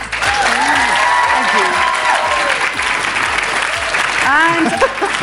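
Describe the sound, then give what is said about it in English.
An audience at the Women in Payments Symposium in Washington, D.C. applauds a panel with steady, dense clapping that holds at full loudness, voices mixed in. “I invite this wonderful audience at the Women in Payments Symposium here in Washington, D.C. to join me in thanking our panel.”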